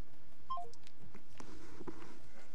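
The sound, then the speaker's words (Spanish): A phone call drops and the line cuts off: a quick descending run of short electronic beeps, then only a low, hissy line noise. “Se cayó la llamada.”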